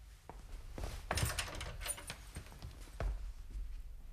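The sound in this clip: A key turns in a door lock, giving a few faint metallic clicks and rattles with light rustling between them.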